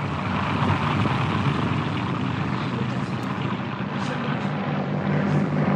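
An airplane flies and banks through a turn, its engine a loud, continuous propeller drone that holds steady throughout without a break.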